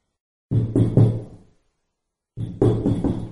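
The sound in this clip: Knocking on a door by a colleague, two short bursts of a few firm raps each, separated by a clear silent pause, loud and alone.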